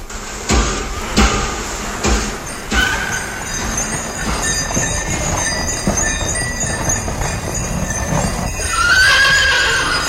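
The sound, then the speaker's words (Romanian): A horse pulling a sleigh: a few sharp hoof clops early on, then a continuous busy rumble of movement and a high whinny near the end. “Uite, haide să mergem, ne așteaptă o sanie.”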